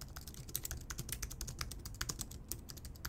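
Rapid, irregular keyboard clicks as someone types a note; the crisp taps are soft and fairly quiet, with no voices.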